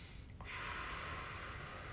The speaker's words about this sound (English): Take a deep breath.